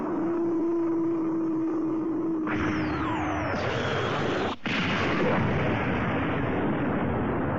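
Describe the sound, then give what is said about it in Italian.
Thermonuclear weapons firing in a huge blast: a steady low hum breaks at about 2.5 s into a sudden loud roaring burst with whistling descending tones, and the roar holds to the end apart from one brief dropout. “Annientali tutti con le tue spaventose armi termonucleari.”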